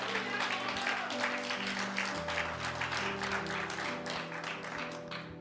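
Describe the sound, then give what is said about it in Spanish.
Inside a church, an audience applauds over sustained keyboard chords. The clapping is steady and dense, then softens toward the end. “Alguien puede aplaudir al Señor.”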